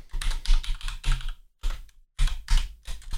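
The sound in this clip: Rapid keystrokes clatter on a computer keyboard as a message is typed, in three loud bursts separated by two short pauses. No one talks over the typing.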